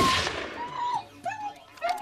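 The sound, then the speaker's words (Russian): A pistol shot fired into a pit at a man lying in it. A single sharp, loud burst decays quickly, then a voice is heard. “Другой охотник стреляет из пистолета, добивает человека в яме.”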